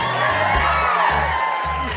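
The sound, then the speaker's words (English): A comedy show audience in Toronto cheers and shouts in a steady, loud roar with scattered whoops, holding at an even level throughout. “Make some noise if you enjoyed Friends.”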